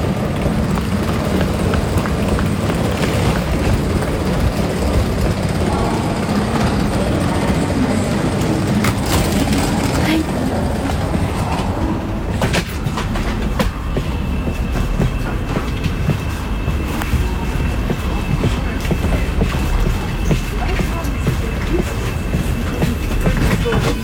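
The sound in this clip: A train carriage rolls along the rails with a loud, steady rumble and rhythmic clatter that continues unbroken from start to end.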